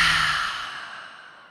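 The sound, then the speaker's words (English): A deep exhale through the open mouth during a guided breathing exercise before meditative journaling: one long, breathy rush of air that starts fairly full and fades softly away on its own. “Let's take a huge breath in through the nose. Open the mouth and exhale.”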